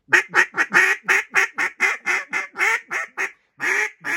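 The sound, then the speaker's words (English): A duck hen quacks on a marsh in a fast, rhythmic string of many loud, nasal calls with a brief pause before a final pair. “you hear ducks on a marsh, you'll hear there's a hen that doesn't want that hen to get what she wants, but there's another one somewhere else, so they're barking overlapping all over the place.”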